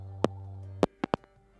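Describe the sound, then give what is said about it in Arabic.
A telephone line tone after a dropped call: a steady low buzzing tone that cuts off with a click, followed by a few sharp clicks, all fairly faint. “أنقطع الاتصال.”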